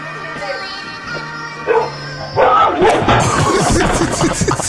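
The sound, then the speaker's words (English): A dog barks on a house porch in Ring doorbell camera footage. After a quieter opening with a faint hum, loud bursts of barking break in, mixed with noisy commotion. “Oh my god. Was got knocked out by a dog? What? Get him off my porch,”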